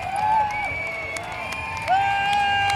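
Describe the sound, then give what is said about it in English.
A crowd cheers in support of marchers in rainbow NHS t-shirts carrying balloons and flags, with sustained high calls ringing out over a steady bed of crowd noise. “Huge support from the crowd here.”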